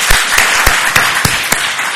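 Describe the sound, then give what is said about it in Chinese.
A church audience claps their hands together: loud, dense applause with a regular beat of stronger claps running steadily through the whole two seconds. “我们大家拍拍手好不好？”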